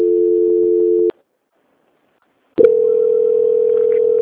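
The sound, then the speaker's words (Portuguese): A telephone line tone during a call transfer: a steady, continuous mid-pitched tone for about a second, a stretch of silence, then the same tone returning loudly and holding unbroken to the end. “Eu vou transferir a senhora para a auditoria, tá?”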